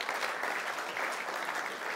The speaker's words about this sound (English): Let's give George a clap too.